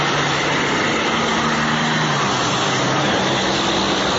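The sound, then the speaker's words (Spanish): Steady, loud roar of a convoy of tractor-trailer trucks hauling bulk goods from the port of Buenaventura, a dense engine rumble that holds without break or voices for the whole stretch. “Este es el sonido de varios de los más de 1.200 tractocamiones con productos a granel que han salido hacia diferentes ciudades del país durante la última semana desde el puerto de Buenaventura durante las caravanas escoltadas por la Fuerza Pública.”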